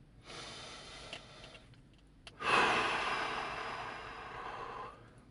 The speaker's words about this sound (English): Take a deep breath.